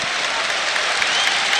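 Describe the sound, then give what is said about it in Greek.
Steady, dense applause from Olympiacos fans in a basketball final arena as a player steps up for his second free throw, a continuous even patter of many hands clapping with no break. “χειροκρότημα του φίλου του Ολυμπιακού για τη δεύτερη προσπάθεια του Σάσα Βεζένκοφ”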